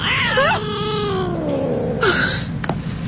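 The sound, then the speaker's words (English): A cat gives one long, loud meow that starts high and slides steadily downward, then a shorter, higher cry follows near the end. “It's just a cat. Nothing to worry about.”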